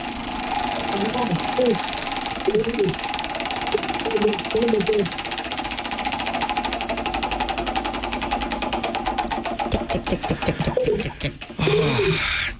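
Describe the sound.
A prize wheel is spun, its rapid mechanical ticking building into a dense run of clicks under continuous talk, then thinning out as the spin ends.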